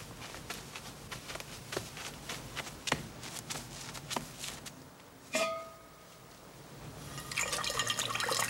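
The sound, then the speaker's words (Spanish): Water poured into a saucepan to make coffee in a kitchen: faint, irregular splashes and drips with small clicks, a single metallic ring from the pan midway, then a brief rush of running water at the end. “Va a la cocina y pone agua en un cazo para hacer café.”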